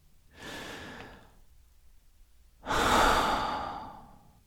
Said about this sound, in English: Let's do one more deep breath.